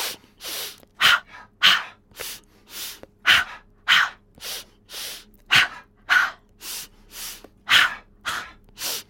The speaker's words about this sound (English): So let's breathe in.